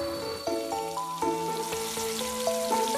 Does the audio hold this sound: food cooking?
yes